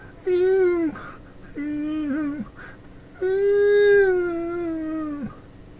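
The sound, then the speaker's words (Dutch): A dog whining softly while lying down: three drawn-out, wavering whines, the last one the longest, each sliding down in pitch as it fades. “De hond was intussen gaan liggen. Hij blafte niet meer, maar hij keek vader aldoor verwijtend aan. Hij jankte zacht en het klonk ongeveer zo.”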